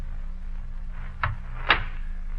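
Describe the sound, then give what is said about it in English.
A door being closed, heard as two short, solid thumps about half a second apart over a low, steady hum. “Please close the door after you.”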